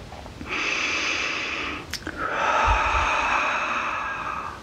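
Deep, slow breathing during a guided forgiveness meditation: two long, breathy breaths, the second longer and steadier, with no talking.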